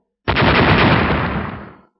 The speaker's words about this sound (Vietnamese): Một hồi những tiếng nổ vang động trời đất